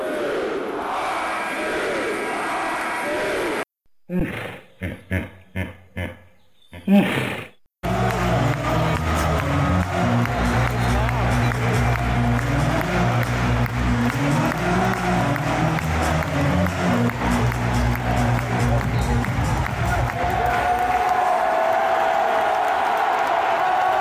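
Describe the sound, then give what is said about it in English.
A basketball crowd at the Rec first roars and then, after a brief choppy break, launches into a sustained rhythmic "RU" chant over heavy crowd noise that continues loudly to the end. “You can hear the RU chant in the background.”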